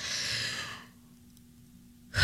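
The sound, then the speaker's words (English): A big, deep breath from a pregnant woman: a long, airy exhale that fades out after about a second, then near silence. “can you take a big, deep breath?”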